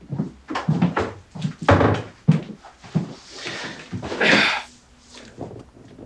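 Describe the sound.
A door is pushed shut by a visitor as a meeting begins, with a series of dull thumps, knocks and handling bumps spread irregularly across several seconds, moderately loud with no speech.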